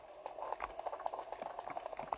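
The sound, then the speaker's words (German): Rain falling in a video game makes a faint, continuous, irregular patter of many small drops, with no talk over it. “Oh, es regnet. Ich könnte echt ausrasten.”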